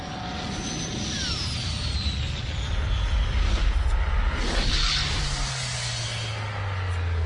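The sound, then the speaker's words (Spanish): An aircraft descends from above with a steady, loud engine roar and a thin whine that slides downward through the noise. “miren arriba. De las alturas cae una aeronave de la que emerge Reed Richards”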